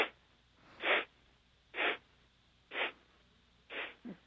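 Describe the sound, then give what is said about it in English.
Breaths during a guided breathing exercise: four soft, airy puffs come at an even, unhurried pace, followed by a short, weaker fifth one, with near quiet in between. “Let the breath out slowly.”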